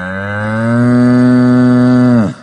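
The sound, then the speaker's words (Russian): A bull bellows before a collision in one loud, sustained, deep call that holds a steady pitch for about two seconds, then drops and cuts off abruptly. “Взревел перед столкновением бык”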